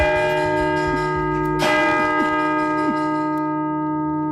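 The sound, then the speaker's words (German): A church bell's striking mechanism clanks and rattles as the bells of a church in Ulm ring. Loud, sustained, humming bell tones persist throughout, broken by a sharp metallic strike and a few faint rattling knocks. “Ja, ich höre das Rattern vom Schlagwerk.”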